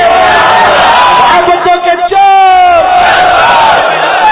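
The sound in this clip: A crowd at a religious gathering chants a slogan against backbiting, many loud voices shouting together in unison, with a brief dip in the middle before the chant surges back.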